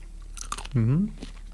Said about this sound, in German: Wir haben hier 3 rote Chilis und eine ganz große gelbe. Mhm. Ich will mal in so eine rote beißen.